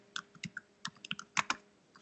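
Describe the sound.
Keystrokes on a computer keyboard as someone types a search into Google, a quick, irregular run of many faint clicks with no voices.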